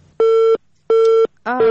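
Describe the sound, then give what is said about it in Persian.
A telephone busy tone sounds after a call drops: two full, evenly spaced steady beeps at a fixed pitch, then a third beep begins. Loud and clear. “متاسفانه تماس خواهر ما قطع شد”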